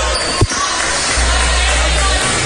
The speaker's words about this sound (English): Bounces the ball. Spins it, stops, bounces it again, spins it again.